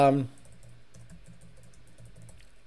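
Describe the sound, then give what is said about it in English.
Typing on a computer keyboard, a steady run of soft, quick key clicks that continues throughout after a short burst of voice at the start. “I got to look up the, let me type it again.”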